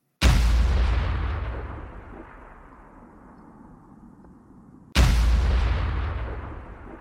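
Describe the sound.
Artillery shots fired at the upper floors of a building: two heavy booms several seconds apart, each with a sharp attack and a long rumbling decay that fades slowly.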